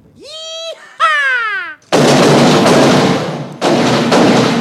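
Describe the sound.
Gunfire as a comedy sound effect: two whistle-like swooping tones, then two long, loud, continuous bursts of shots, one after the other.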